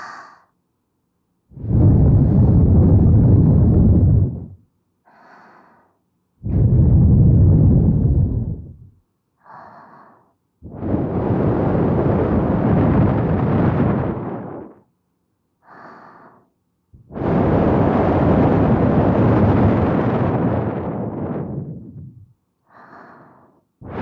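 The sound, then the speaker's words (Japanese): Strong breaths are blown straight into a microphone during an ear-care session. Four long, loud, rushing gusts are heard, each lasting a few seconds, with faint short breaths between them. “それでは、今度はもう少し強めに吹いておきますね。せーの。”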